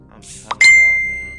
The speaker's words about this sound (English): I apologize for all the background sounds. I got my phone close by while I'm recording this shit, man.